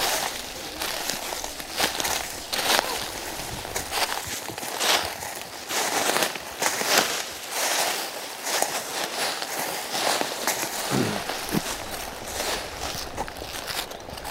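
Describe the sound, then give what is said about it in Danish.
Footsteps walking through a large forest, a steady run of crunching, crackling steps on the ground that continues for the whole stretch with no talking. “det er jo en stor skov, vi går i”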